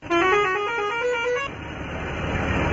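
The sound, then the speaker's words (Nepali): A loud, sustained horn blast from a passenger vehicle on a road holds for about a second and a half, then gives way to steady, rumbling traffic noise. “यसरी horn बजाउँदै सिटभरि यात्रु बोकेर सड़कमा हुइकिने गाड़ीहरू lockdown यता देख्न पाइएको छैन।”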